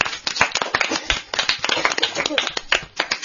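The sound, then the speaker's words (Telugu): Audience clapping in response to a child reciting: dense, uneven hand claps from many people, sharp and irregular, continuing steadily at a moderate level throughout. “ఒక్కసారి సాహితీకి అందరూ claps కొట్టండి”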